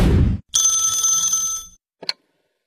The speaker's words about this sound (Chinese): 正想着呢，又一个陌生来电